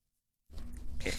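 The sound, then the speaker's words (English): A puppy's squealing yelp bursts out in a radio studio after a brief silence: a single harsh, noisy cry lasting under a second. “We've got more puppies.”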